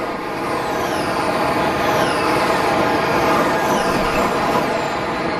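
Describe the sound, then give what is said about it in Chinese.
Electric race cars whine into the pit lane to recharge in the rain: a continuous loud wash of road and track noise with several high, thin motor whines sliding downward in pitch. “可以看到现在有三辆赛车已经是进站来要进行充电”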